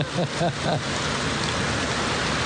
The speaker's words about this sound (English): Or if you want to, you can go out and run in it now. Take off running. Go out and get in it. Oh, man. Let it rain, let it rain, let it rain.